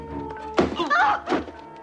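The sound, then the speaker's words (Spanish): A police sergeant's punch to the stomach knocks a kneeling man to the ground: a sudden dull thud, followed by strained, groaning vocal sounds. “El sargento le golpea en el estómago tumbándole.”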